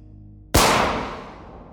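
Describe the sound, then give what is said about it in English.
A single gunshot from a gunman firing into the back of a man's neck at close range: one sharp, loud crack that bursts in suddenly over a low hum, then fades into a long, slowly decaying tail with no other sound. “the gunman withdraws his weapon and creeps up on his target. He fires into the back of Kirov's neck.”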